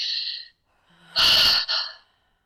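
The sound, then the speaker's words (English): A big, deep breath taken during an emotional tapping exercise. A soft, airy breath comes first, then a short pause, then a loud, rushing breath that breaks off briefly before trailing away. “Big breath, big sigh.”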